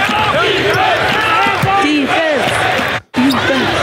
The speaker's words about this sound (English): Just some random dribbles.